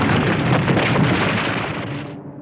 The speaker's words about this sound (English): All the buildings are falling down! That's what I'm saying!